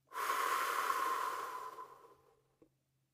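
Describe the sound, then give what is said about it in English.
A deep breath drawn and let out slowly, heard alone as one long, soft, airy rush that fades away over about two seconds, with a faint click afterward. “First, let's take a deep breath. Let it out.”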